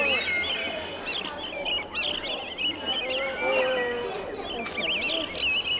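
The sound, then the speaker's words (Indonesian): Many birds call in a zoo bird enclosure holding parrots, starlings and peacocks, a dense, overlapping chorus of bright chirps, whistles and trills at a steady, moderate level. “Sampailah mereka di kandang burung. Beraneka macam burung ada di sana.”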